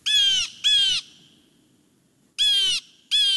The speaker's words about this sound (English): This is the Steller's jay. If you're west of the Rocky Mountains, you're most likely to hear the Steller's jay.